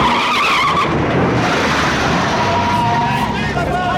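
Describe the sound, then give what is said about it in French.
A Ferrari race car skids on a bend, a loud, continuous rush of tire and engine noise with a high squeal that holds steady throughout. “La Ferrari, elle dérape. Je dois l'éviter. Pas à droite, il y a la mystère, mais à gauche, c'est le fossé. Et voilà le virage. Je dérape aussi.”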